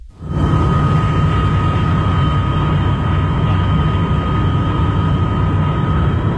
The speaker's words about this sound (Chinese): 飞机缓缓地降落在北京首都国际机场。